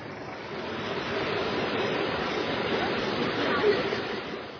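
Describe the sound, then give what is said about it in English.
Vehicles pushing through flood water make a dense, continuous rushing splash that holds steady and fairly loud for several seconds, with no distinct engine note standing out. “Some make it over in the shallows, if they are in a hurry, and think nothing of wet feet. Some press on with engine revving,”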